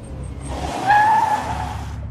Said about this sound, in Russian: Иван резко затормозил. Брызги из лужи полетели во все стороны.